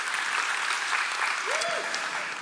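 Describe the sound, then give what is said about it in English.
Church audience giving a hand clap, a loud, steady burst of many people applauding together that carries evenly through the short stretch. “Y'all give my assistant a hand clap.”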